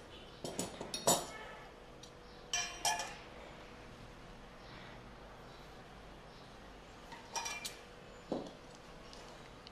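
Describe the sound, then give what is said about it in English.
A spoon clinks against a glass while stirring falooda, giving a few brief bright clusters of light metallic taps separated by longer quiet stretches. “And then just move your spoon around.”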